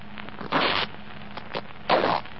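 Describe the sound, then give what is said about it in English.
The lining of a jacket's breast pocket is cut open, giving two longer rasping bursts of fabric noise and a shorter one between them, set against a faint background hum. “Well, cut it. Cut the lining.”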